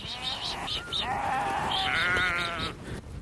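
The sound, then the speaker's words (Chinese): Sheep bleating as a flock is herded from a pasture at the foot of the Tianshan mountains back into the pen, many overlapping wavering cries, continuous and fairly loud throughout. “又要赶到他们家位于天山脚下的下牧场把羊赶回羊圈。”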